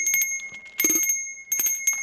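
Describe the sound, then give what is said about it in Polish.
A very small bell from a collection rings in a few light, bright strikes. Each strike leaves a clear, high, sustained tone that hangs between the hits. “To może niech jeszcze nie zamek, tylko dzwonek taki maluteńki.”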